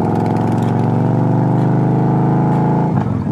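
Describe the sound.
A motorcycle engine gives a loud, steady, rich drone as a ride begins, holding an even pitch before its tone shifts near the end.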